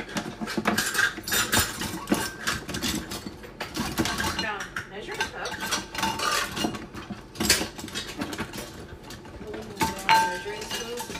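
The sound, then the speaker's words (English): Metallic clinks and rattles of cutlery as someone rummages through a kitchen drawer or rack for a tablespoon, with many irregular, overlapping clinks throughout. “Do you want me to look on the rack? If you can, because I don't see any in here. I found a loose tablespoon.”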